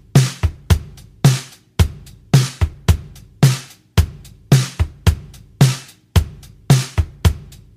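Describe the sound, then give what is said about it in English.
A straight drum beat on a kit with a low kick drum and a low-tuned snare drum, the hits alternating in a steady, even rhythm. The strikes are dry and punchy and repeat many times without other instruments. “if you take a regular straight old beat and you got a low kick drum and a low tuned snare drum, it's going to sound like this.”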